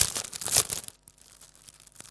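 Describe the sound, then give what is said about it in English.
Crinkling of a paper information pack being handled during church announcements, a loud burst of rustling and crackling in the first second that fades to faint scattered rustles. “Inside the packs, there are little cards. I'll show you one.”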